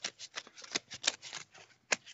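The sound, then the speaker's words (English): Paper rustles as a paper envelope is opened: a quick, faint run of soft crinkling bursts, with a couple of sharper crackles, and no talk. “Opening the envelope of doom.”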